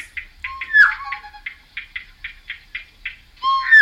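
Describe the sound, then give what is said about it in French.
Two birds calling: a brisk, regular series of short, clipped mid-high notes, broken at the start and end by a few louder, longer warbling notes, with no voices. “Toro, c'est un oiseau. Et Tororo, c'est le deuxième.”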